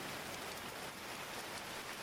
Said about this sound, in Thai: ฝนตกแบบนี้ทำอะไรไม่ได้แล้วล่ะ